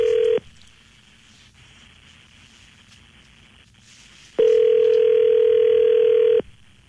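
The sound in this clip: Telephone line tones as a call is dialed: a short steady tone, then after a quiet gap a loud, unbroken tone holding for about two seconds before cutting off.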